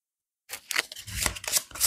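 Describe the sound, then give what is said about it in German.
Tarot cards being shuffled and drawn: crisp, papery riffling and sliding bursts start after a moment of silence and continue at moderate loudness, with no voices. “Unter dem Teufel mische ich mir mal von diesen Karten eine raus.”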